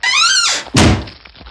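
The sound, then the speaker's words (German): A large trunk being shut and locked with a huge lock. A short, drawn-out creaking squeal comes first, then one loud, heavy thunk, followed by a few faint rattles. “Er legte den Rubin in einen großen Koffer und verriegelte ihn mit einem riesigen Schloss.”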